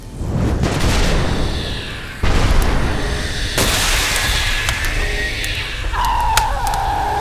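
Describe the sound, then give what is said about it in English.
A run of explosions sounds as several loud booms and crackling bursts, each overlapping the last in a sustained, noisy roar with sharp snaps scattered through it. “There they go. They're exploding. All of them.”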